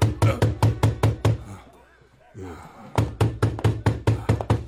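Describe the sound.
Loud, rapid knocking on a door comes in two bursts of many sharp raps each. A short pause between them carries a voice.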